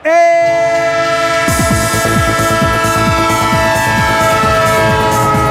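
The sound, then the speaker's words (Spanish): A train sound effect: a loud, steady multi-tone horn blares from the start, then the rhythmic clatter of wheels over rail joints joins beneath it and continues under the held horn. “¡Tren de Radio Estadio! El tren de Onda Cero, el tren del deporte, el tren al que te subes y no te mareas”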